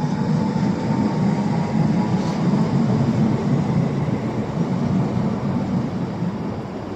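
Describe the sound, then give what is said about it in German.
Regional train on line 11E bound for Waren, departing with a loud, steady rumble and broad rolling noise that holds evenly throughout, with no voices. “Jetzt fährt die 11E nach Waren los.”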